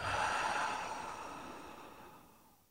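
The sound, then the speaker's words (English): One slow, deep breath out during a guided relaxation exercise before a bedtime story. The soft, airy exhale starts fullest and gradually tapers away into near silence. “Do that one more time. Breathe in and out.”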